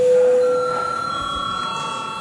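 An electronic bell rings in a parliamentary session to call deputies to registration: one steady, sustained tone that lasts about two seconds, loud at first and then easing slightly.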